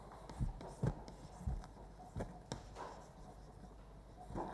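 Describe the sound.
Writing the fungus name Phycomyces on a board: a few faint, scratchy strokes and taps in an uneven rhythm, with no voices.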